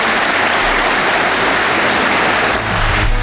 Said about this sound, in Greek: Η Μπακογιάννη χειροκροτεί πιο θερμά από όλους.